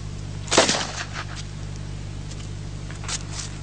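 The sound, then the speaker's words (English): A revolver fires a blank at a target after a quick draw from the holster, one sharp crack that fades quickly, followed by a much fainter click a few seconds later. “Let me set this target up. I'll shoot about 8 feet away because I'm shooting blanks now.”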